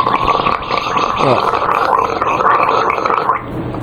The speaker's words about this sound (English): I could do without the gargling of the pee. I really like gargling with piss.